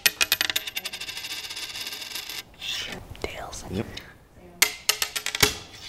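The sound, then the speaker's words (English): A coin is flipped, rapid bright metallic ringing pulses followed by hushed whispering voices, then a few more sharp clinks as the coin lands and settles. “Roll the tape back to a moment right at the beginning of our coin flip.”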